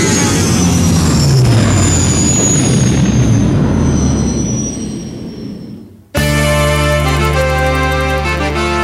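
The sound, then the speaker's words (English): A powerful spaceship lifts off the surface of a moon with a loud, broad roaring rumble and thin whining tones. The roar thins and fades away, then music starts abruptly. “pulls back on the throttle and the powerful spaceship lifts off the surface of the fourth moon of Ogana.”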